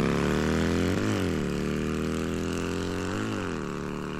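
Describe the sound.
A vehicle engine keeps running after a wire under its hood was cut by mistake instead of the fuel hose, leaving its lights dead. The drone is steady and loud, and its pitch dips and recovers briefly a couple of times.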